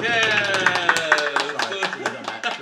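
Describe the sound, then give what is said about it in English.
Cheers and joviality from a lively crowd: overlapping voices shouting and laughing, with scattered hand claps running all the way through, loud and busy. “General sounds of cheers and joviality just fine.”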